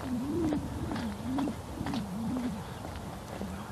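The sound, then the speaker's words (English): Regular footsteps of a person walking outdoors in the morning, falling at an even pace in a steady rhythm, with a low wavering tone running faintly beneath them. “I'm walking and not talking because it's just such a beautiful morning. I'm just enjoying it. Walking to the beat.”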